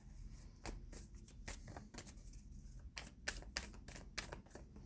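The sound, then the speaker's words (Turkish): Tarot cards being shuffled during a reading: many soft, crisp flicks and riffles in an uneven rapid patter, faint and alone without speech. “E, sonuç kartları çekeceğim. Biraz da kartlarla oynayayım.”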